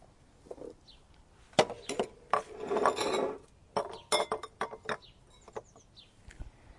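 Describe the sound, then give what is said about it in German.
Clinks and scraping from a glass lemon squeezer as lemon juice is pressed out: scattered sharp knocks, a longer grinding rub in the middle, then a run of light clicks and taps, with no talking. “Da haben wir so eine Zitronenpresse, wo man ganz einfach so den Saft rausdrücken kann.”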